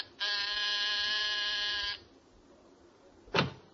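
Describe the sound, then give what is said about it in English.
An apartment door buzzer is pressed once, giving a single steady, harmonically rich buzz that lasts about two seconds and then cuts off, followed a moment later by one short dull thump. “as you press the buzzer outside his apartment”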